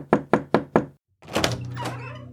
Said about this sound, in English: Yeah, just dip on in. You head right to Matthias's. Knock.